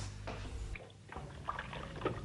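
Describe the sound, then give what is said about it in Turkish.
Hands are washed under a running kitchen tap, a faint, steady watery hiss with a few small splashes and trickles on top. “Önce ellerimi yıkayayım.”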